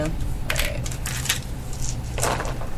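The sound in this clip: Dice roll across a table during a tabletop game, making a few short, bright clattering rattles over a steady low background hum.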